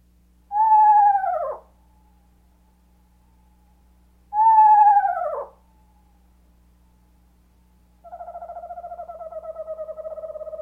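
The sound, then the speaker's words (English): Eastern Screech Owl calls: two loud, quavering whinnies that each slide downward in pitch, separated by a pause, then a steady, evenly pulsed monotone trill that carries on to the end. “Eastern Screech Owl.”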